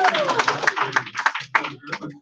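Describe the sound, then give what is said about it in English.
Audience clapping for a speaker at the start of a talk, a steady patter of applause mixed under a man's voice speaking over it. “You can clap for me. Thank you.”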